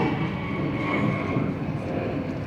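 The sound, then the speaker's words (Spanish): An airplane passes overhead, heard as a loud, steady, broad roaring rumble that fills the whole clip without clear rise or fade. “está pasando un avión bien cabrón”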